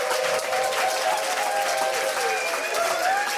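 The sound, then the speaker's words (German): A live studio audience at a packed evening show at Bikini Berlin applauding and cheering, with dense, steady clapping and crowd voices filling the whole stretch at an even, loud level. “Wir sind voll bis unters Dach, kann man sagen. Können die Leute das auch einmal hören? Herzlich willkommen, ihr alle.”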